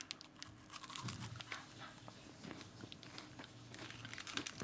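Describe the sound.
Biting into and chewing crunchy food: many faint, crisp crunches and crackles scattered in an uneven rhythm, with no talk.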